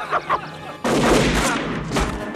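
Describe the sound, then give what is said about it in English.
Gunfire from a gun hidden inside a puppet in a movie scene: two short muffled thumps, then a sudden loud blast that runs on as a rough, sustained burst to the end. “So there's the gun inside the puppet. Yeah. The old gun inside the puppet.”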